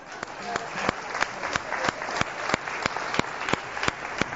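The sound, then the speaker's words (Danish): Audience applause at the end of a talk: dense, steady clapping from many hands, with sharp single claps standing out at a fairly regular beat throughout. “Sådan, giv mig en hånd.”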